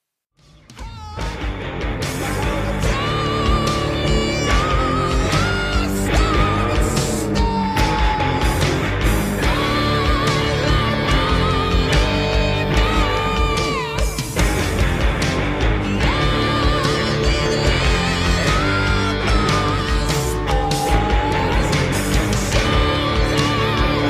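Heavy rock music plays loud and steady after a brief quiet start, with distorted electric guitars, pounding drums and a high, strained male lead vocal carrying melodic lines throughout.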